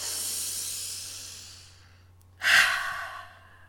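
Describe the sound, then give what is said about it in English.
Deep breathing in two long, airy breaths. The first tapers off slowly into quiet, and the second starts abruptly and louder before fading again. There is no talk. “Take a few deep breaths.”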